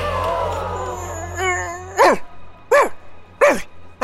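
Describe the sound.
A dog barks four times, each bark sharp and loud and roughly evenly spaced, following a stretch of other sound.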